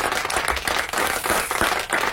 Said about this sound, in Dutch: ik begrijp dat applaus. Begrijp het.